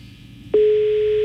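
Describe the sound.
A telephone tone on a call that goes unanswered: after a brief quiet hiss, a steady low tone cuts in abruptly halfway through and holds at one constant pitch to the end.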